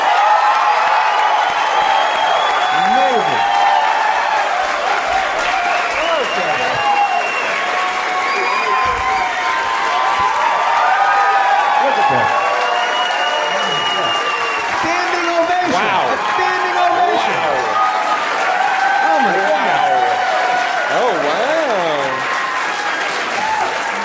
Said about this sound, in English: ovation. That is. I am awesome. furious that I did not get a standing ovation. How dare you?